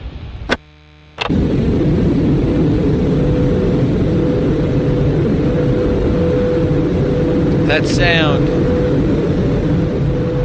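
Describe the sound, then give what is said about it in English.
A spaceship shuttle lands in a science-fiction audio drama effect: a couple of brief clicks, then a sudden, loud, sustained rushing roar that holds steady, with a short warbling electronic chirp near the end. “That sound. That's the Sunday shuttle landing. Our last visitors before they shut the topiary down tomorrow.”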